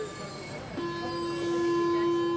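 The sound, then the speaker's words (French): A metro train pulls into a Paris station: a steady low rumble, then a sustained electric whine that sets in about a third of the way through and holds alongside fainter high tones as the noise slowly builds. “là, un métro arrive, on n'aurait pas pu se jeter même si on en avait voulu.”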